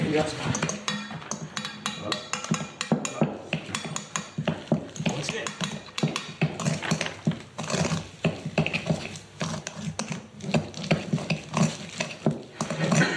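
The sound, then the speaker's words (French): Rapid scraping and clinking as sugar is stirred into a chocolate mixture in a bowl, without a whisk. Many quick, uneven strokes run continuously at moderate loudness. “on renverse nos 70 g de sucre et on continue de le mélanger au fouet”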